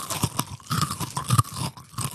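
A crunchy snack is chewed with many irregular, crisp crunches and crackles in quick succession, fairly loud and with no talk over them.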